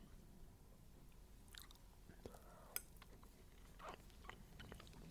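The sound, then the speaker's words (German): Someone bites into and chews a classic Gugelhupf cake, making faint, soft mouth sounds and light crunches. One sharper bite stands out near the middle, and the quiet chewing continues around it. “Ich probiere jetzt mal den Klassiker, den Google-Hupf.”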